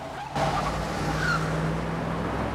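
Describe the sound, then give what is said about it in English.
A car screeches off down a deserted industrial road: a roar of engine and tire noise bursts in suddenly and holds steady, with a brief high squeal partway through. “The car screeches off down the deserted industrial road.”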